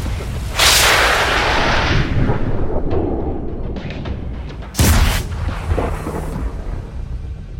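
Weapon fire following a fire command: two loud, heavy booming shots, the first early and the second a few seconds later, each trailing off in a long rumbling decay.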